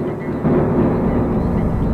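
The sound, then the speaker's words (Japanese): Thunder roars in a deep, continuous rumble that swells to a louder level after a short moment and then holds steady as a heavy, rolling low roar. “その時、雷鳴が轟いた。”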